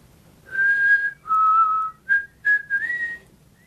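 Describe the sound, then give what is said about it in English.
A person whistles a short tune alone: several clear, sustained notes, some held long and some short, with a small upward step in pitch near the end. “I taught you how to whistle.”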